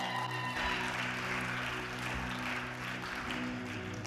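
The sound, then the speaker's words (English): Audience applause welcoming a pastor to the stage, a steady, continuous wash of clapping held at a fairly faint level throughout, with a low hum underneath. “I want to welcome him to the stage. Let's give him a great big hand.”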